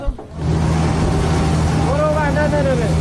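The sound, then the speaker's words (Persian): A fuel tanker truck's engine on a road, sent to help a Red Crescent relief vehicle that ran out of fuel. After a brief quieter start it gives a steady, loud rumble with a whining tone rising and falling on top. “این صدای سوختبری است که به کمک ماشین هلال احمر آمده، امداد رسانی که سوختش تمام شده و در جاده مانده.”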